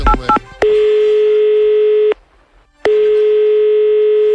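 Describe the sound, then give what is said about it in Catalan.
Telephone tones while calling a guest: a few quick dial beeps, then two long, steady, loud ringing tones separated by a short silent pause. “Vaig a trucar un altre convidat.”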